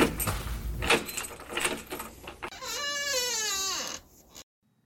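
Keys jangle and rattle in a lock for a couple of seconds, then a door swings open with a long, wavering creak that slides down in pitch before stopping.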